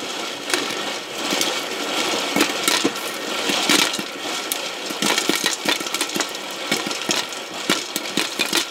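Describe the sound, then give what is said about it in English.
A spinning Whirly Pop popcorn maker gives a continuous rattling whir, with many sharp kernel pops that grow denser and more scattered toward the end. “That was the sound of our Whirly Pop popcorn maker. It spins so the heavier kernels fall to the bottom and pop.”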